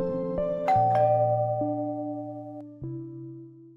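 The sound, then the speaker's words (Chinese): A notification bell sound effect for subscribing rings out in a few bright chime strikes, each leaving sustained ringing tones that overlap and slowly decay. “请随手按下订阅并开启小铃铛”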